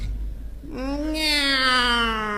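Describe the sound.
A voice imitates a cat meowing in a comedic routine, giving one long, drawn-out meow that climbs briefly in pitch and then slowly sinks.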